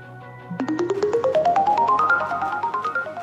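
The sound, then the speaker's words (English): Electronic beeps from a new dialing machine trying to connect a call: a quick, regular run of tones that climbs steadily in pitch, then holds level with a slight waver, with no talk. “That weird noise means the new dialing machine's trying to connect, by the way.”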